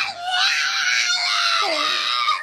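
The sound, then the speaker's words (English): A pug screaming: a loud, high, strained cry held for about two seconds, its pitch dipping near the end. “the screaming pug.”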